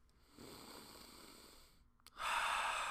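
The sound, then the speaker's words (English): Breathing close into a microphone, two soft, airy rushes of breath noise, the second sharper and stronger, faint overall with no talk. “You can hear my breath through the mic.”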